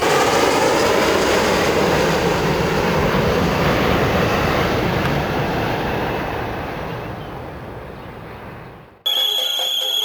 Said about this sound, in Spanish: Muchas cuestiones para plantearse en un simple avión. En un maldito avión que mata cualquier romanticismo hacia lo nuevo.